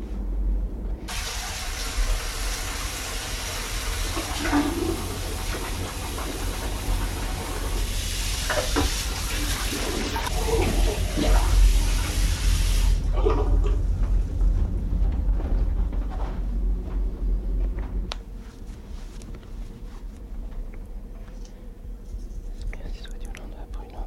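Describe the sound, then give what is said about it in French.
Clean water poured into a container makes a steady, broad hiss that runs for about twelve seconds and then stops, followed by a quieter stretch of low noise. “Maintenant, si vous voulez, je vais remettre de l'eau propre”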